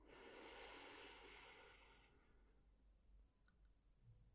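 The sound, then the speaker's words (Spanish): A slow, deep breath drawn in during a guided breathing exercise: a soft, airy rush lasting about two seconds that then fades away to near silence. It is very faint and heard alone. “Inhala. Exhala. Inhala.”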